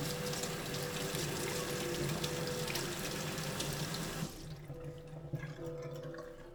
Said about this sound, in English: I'm going to rinse my hands out here.